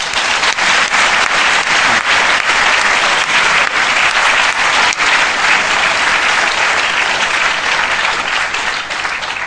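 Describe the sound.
Loud audience applause welcoming a speaker at a London talk, dense and sustained clapping that stays at a steady level for nearly ten seconds before tapering slightly at the end.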